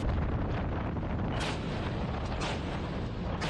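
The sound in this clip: A warship's main gun fires a salvo during a live-fire drill at sea: several heavy booms rise out of a continuous, dense roar of noise.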